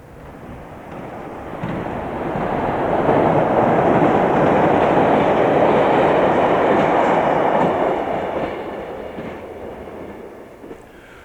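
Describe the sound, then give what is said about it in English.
A subway train rumbles past as a loud, broad roar that builds over a couple of seconds, holds steady, then gradually fades away, with no voices. “Listener Christopher Smith correctly reported that it was a subway train”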